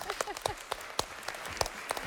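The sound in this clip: Children clap in a classroom quiz game: several sharp, irregular hand claps, scattered rather than in unison, moderately quiet, with some talk mixed in.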